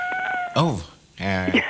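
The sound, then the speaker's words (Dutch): A cat meows twice, each a clear, tonal, wavering call, with a short pause between them. “De kat geeft antwoord.”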